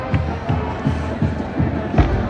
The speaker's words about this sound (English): I hope you can hear the stupid big drum in the background.